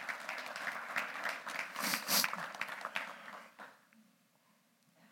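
Applause from an audience welcoming two guests to the front during a morning church service: a steady wash of clapping that swells to a peak midway, then thins out and stops.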